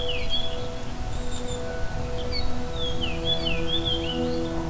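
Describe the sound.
A fox sparrow, a small dark thicket bird, sings melodic, sweeping whistled notes. They are sparse at first and more frequent in the second half, over a steady low hum and background noise.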